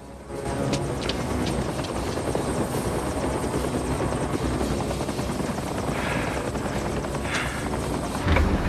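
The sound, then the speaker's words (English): A helicopter waits near an outbuilding, its rotor and engine giving a steady, loud, continuous whirring drone throughout, with no voices. “The chopper waits for him nearby.”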